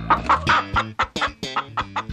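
Urban chickens clucking: a brisk, uneven run of many short, throaty clucks, loud and clear with no talk over them.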